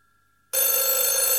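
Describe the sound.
A telephone bell rings loudly and steadily, bursting in abruptly after a short moment of near silence and holding a bright, continuous metallic ring to the end.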